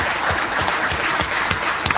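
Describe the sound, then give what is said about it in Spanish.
Audience applause welcomes a guest, a steady, dense patter of clapping that carries on without a break from start to finish. “Con los aplausos del caso, les pido que vayamos recibiendo entonces a Carlos Maggi.”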